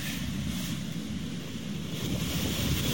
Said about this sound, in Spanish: Ustedes escuchan el sonido ambiente de el oleaje, la costa en el sector de El Blanco, en la comuna de Lota.